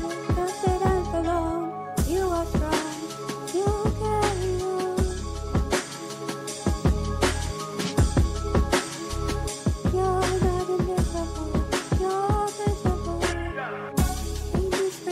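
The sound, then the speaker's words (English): A song plays, with a wordless female voice over a punchy, steady beat. The short, loud loop repeats with brief dropouts near the start and end. “What you just heard is the entire song, and she's about to repeat it five more times.”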